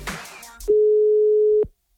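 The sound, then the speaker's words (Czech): A telephone line tone after dialing a number: one steady, loud, mid-pitched beep holding for about a second, then cutting off to silence. “Tak vyzkoušíme si, jaký to doopravdy je tím, že vytočíme její telefonní číslo.”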